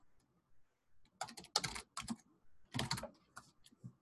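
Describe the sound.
Typing on a computer keyboard, quiet irregular clusters of key clicks in short bursts with brief pauses between them.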